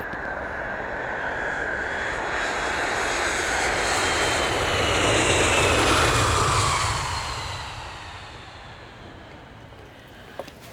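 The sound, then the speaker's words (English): An aircraft engine roars in flight, a broad, steady rumble that slowly swells to a peak and then gradually fades away. “I'm sorry, Lorcan. You're breaking up. I think the aircraft must be interfering with your reception.”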